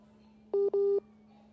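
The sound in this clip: Telephone dialing tones while a call is reconnected: two short, loud keypad beeps in quick succession, the second longer, over a faint steady hum.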